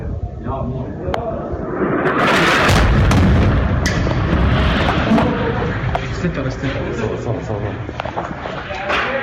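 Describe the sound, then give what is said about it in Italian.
A bomb explodes in Mosul with a deep, heavy boom, followed by sharp cracks of gunfire scattered over a dense, noisy background, with voices mixed in. “come avete sentito, non sono rischi da poco per nulla, perché qui mi pare a Mosul esplode una bomba e dopodiché c'è una sparatoria.”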